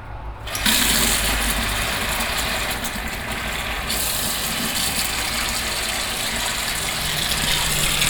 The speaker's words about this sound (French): Un test que j'aime faire beaucoup avec les micros binauraux, c'est le test du robinet.